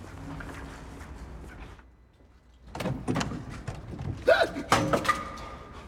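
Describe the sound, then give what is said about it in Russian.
An ambulance door opens in a parking lot: a few mechanical clunks and thuds after a brief lull, then a sharper clatter of latch and metal near the end, over continuous background noise. “открывает дверь одной из машин”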